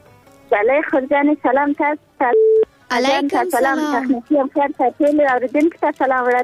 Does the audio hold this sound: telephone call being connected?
yes

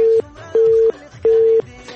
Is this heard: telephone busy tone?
yes

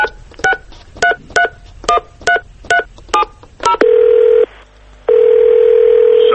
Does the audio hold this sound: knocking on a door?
no

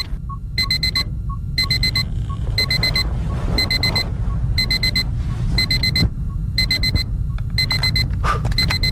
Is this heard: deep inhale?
no

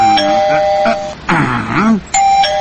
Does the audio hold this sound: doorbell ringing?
yes

